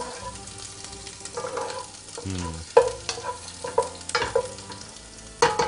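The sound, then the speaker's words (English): Garlic stirred in a frying pan for an ancient Mesopotamian recipe: steady, soft sizzling runs throughout, broken by many irregular clacks and scrapes of the utensil against the pan. “So I'm gonna add that and also add about half of the garlic. Just gonna continue stirring it.”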